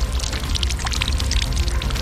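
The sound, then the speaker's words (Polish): Water splashing from a fountain in Saski Garden, Warsaw, a steady, continuous rushing patter with no breaks and no voices. “Do Saskiego, gdzie jesteśmy tutaj, przy fontanie wody.”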